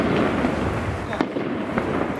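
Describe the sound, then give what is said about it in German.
Bursts of automatic weapon fire during clashes between Hamas and the Palestinian Authority, about 200 meters from the Jenin refugee camp. A few sharp cracks stand out against dense, steady noise. “Salven von automatischen Waffen.”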